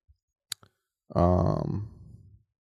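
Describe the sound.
Clicking on a phone app screen: a few sharp, separate clicks spaced out over the first second, followed by a person speaking.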